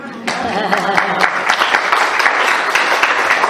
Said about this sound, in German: dafür müssen wir uns auch einen Applaus geben, oder?